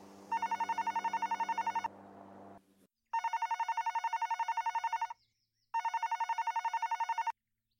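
A telephone rings in three bursts of rapid, trilling electronic tone, each lasting one to two seconds with short silent gaps between. The ring is fairly loud and mostly alone, with some low background noise under the first burst.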